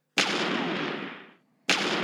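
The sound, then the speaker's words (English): Gun salute sound effect: two loud, booming gunshots, the first ringing out and decaying for over a second before silence, the second cut off at the end. “That's my little gun salute for some Stanley. It's 7 shots, though.”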